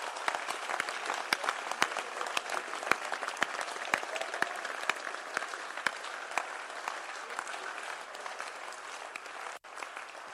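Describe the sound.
An audience applauds with dense, steady clapping that carries on throughout and stays fairly faint and even. Sharp individual claps stand out, and there is a brief dip near the end.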